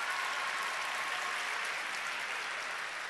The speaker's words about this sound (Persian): یه دست به افتخار باباهاتون بزنید.